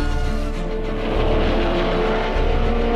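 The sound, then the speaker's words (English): Formula One racing cars roar with a loud, continuous, high-pitched engine whine and dense mechanical buzz. The intensity stays steady, with slight surges in level. “sounds of Formula One. It's a strident symphony.”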